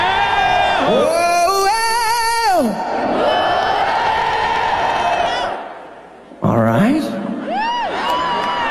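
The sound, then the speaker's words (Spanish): Live audience cheering at a concert at T-Mobile Arena: a loud, sustained roar of screams and high whoops that dips briefly, then surges back up with fresh shrieks. “¿Quieres escuchar al público esta noche?”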